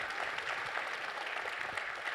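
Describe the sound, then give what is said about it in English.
A church audience applauding: dense, steady clapping from many hands that fills the whole stretch without a break. “Yeah, you can clap if you want for them.”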